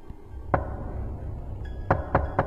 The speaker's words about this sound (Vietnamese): Tiếp theo đó là một tràng gõ cửa vang lên từng hồi đến ghê rợn. Lần này không chỉ là gõ, mà cảm giác như nó đang đập cửa thùng thùng vậy.